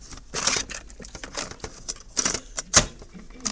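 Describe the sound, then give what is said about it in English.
A cassette tape is turned over: a quick run of irregular plastic clicks, rattles and rustles, with one sharper click near the end. “Let me just turn that tape over.”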